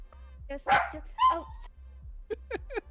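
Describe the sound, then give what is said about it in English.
An excited dog barks at another dog outside: two loud barks, then three quick, shorter yips after a pause. “He saw a dog outside, so he's having a great time.”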